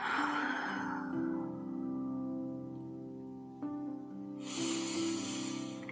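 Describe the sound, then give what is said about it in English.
A deep inhale and exhale through the mouth, heard as soft breathy rushes at the start and again near the end over a steady, sustained musical drone. “take a deep inhale, deepest exhale out your mouth”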